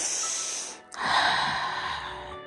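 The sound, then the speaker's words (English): A deep human breath, an airy, rushing sound that stretches across about two seconds with a short dip partway through, heard alone without talk. “So take a deep breath.”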